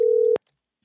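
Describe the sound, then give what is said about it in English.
A single short telephone line tone sounds at a steady mid pitch, ends in a sharp click, and is followed by silence. “I'm about to call my own damn phone so y'all can hear how clear it sounds.”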